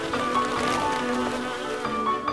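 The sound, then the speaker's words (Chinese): A mosquito's thin, steady buzzing drones on without a break across the whole clip, high and whining, with no voices. “米米用书赶蚊子”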